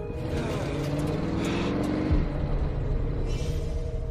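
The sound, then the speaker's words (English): A departing delivery truck pulls away down a street, its steady low engine rumble holding throughout, with a brief louder surge near the middle. “grabbing a handle on the back of a departing truck as Mahogany stands and watches.”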